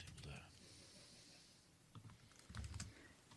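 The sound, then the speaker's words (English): Faint tapping on a computer keyboard: soft, uneven keystrokes, with a quicker cluster of clicks toward the end. “So I'm just going to type in here, social distance.”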